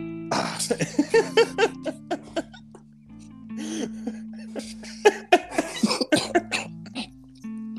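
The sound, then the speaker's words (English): Coughing from a man with a chest cold: repeated harsh, throaty bursts that come in uneven clusters, fairly loud over a steady tonal background. “I got a chest cold right now, and I'm hacking up a lung. So I put Vicks on my chest before the show. That way I wouldn't start coughing.”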